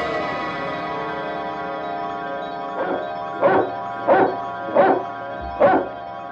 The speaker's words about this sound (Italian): non sono io che abbaio con la tosse, è il cagnolino che abbaia senza tosse.